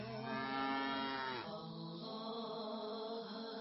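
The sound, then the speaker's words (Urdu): A cow moos in one long, low, drawn-out call whose pitch drops partway through and then holds steady to the end. “گھوڑا، گائے گائے گائے”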